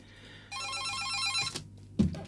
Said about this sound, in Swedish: Tack för beviset att telefonen fungerar.